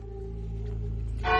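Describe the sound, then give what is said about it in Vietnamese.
Bell ringing from a magic soul-stealing bell in an audio drama: a steady, humming, low ringing tone that sustains throughout, then a louder and brighter ring swells near the end. “Các người hãy biệt tay lại, cẩn thận bị tiếng chuông này làm rơi hồn đó.”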